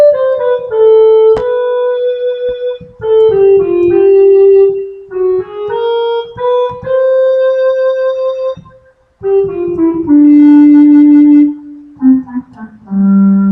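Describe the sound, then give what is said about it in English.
A recorder plays a slow melody of loud, held notes separated by brief pauses, moving to lower notes toward the end. “they say the recorder should sound like this.”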